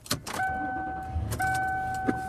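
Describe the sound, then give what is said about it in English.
A car is being driven, heard as a faint, steady low road rumble with a thin constant whine over it and a few soft knocks. “I am driving home.”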